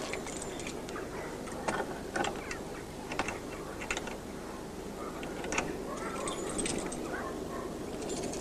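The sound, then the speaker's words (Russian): Keys are tried in a door lock at a house, making many faint metallic clicks, jangles and small rattles in an irregular rhythm. “Прислушивается. Подбирает ключи.”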